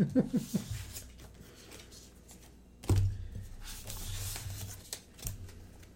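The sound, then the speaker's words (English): Playing cards being sorted by hand on a table, with the cards slippery: soft papery rustling and sliding, with a few low thunks and a louder burst of shuffling midway, fairly quiet overall. “This is the sound of us sorting cards.”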